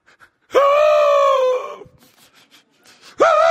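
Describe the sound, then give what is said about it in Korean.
A voice imitates the mournful cry of a dying elephant with a long, loud, wavering wail that trails off. After a quiet pause a second wail begins. “이렇게 울어요. 그러니까 죽음의 슬픔을 알아, 코끼리는.”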